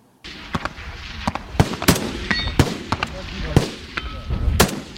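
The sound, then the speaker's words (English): Sniper rifle shots at a gun range: many sharp, loud cracks at irregular intervals over a steady background rumble. “President Putin even lying down at the gun range to fire off a few rounds with a sniper rifle, which is what you're seeing in front of you now”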